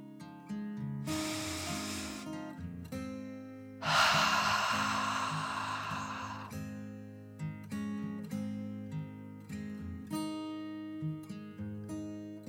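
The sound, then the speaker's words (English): A deep breath drawn in and let out comes as two breathy hisses. The first is brief and soft; the second is longer and louder and fades slowly. A steady tonal background lies beneath them. “She took another deep dragon breath in and out.”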